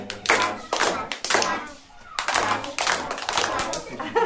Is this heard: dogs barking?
no